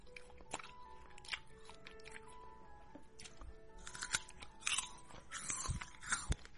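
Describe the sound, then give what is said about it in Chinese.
Crisp crunching and chewing of winter jujubes, with many irregular wet, crackling bites and mouth sounds, quiet and with no talk, growing busier toward the end. “我才没有偷吃呢，我在吃冬枣啊”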